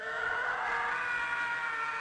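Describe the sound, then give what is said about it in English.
A stock film scream sound effect, a man's scream used in movies, heard as one steady, high, strained wail held for about two seconds without a break. “The Howie scream sounds like this.”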